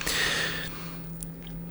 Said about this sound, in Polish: Łyczek yerby, dzisiaj yerba towarzyszy nam przy nagrywaniu podcastu.